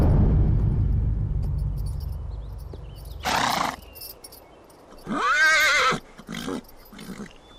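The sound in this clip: Horses of approaching troops: a low rumble of hooves at first, then several loud, shrill whinnies in separate bursts, with quieter gaps between them.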